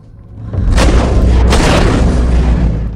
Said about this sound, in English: He shoots off a figure's plaster head.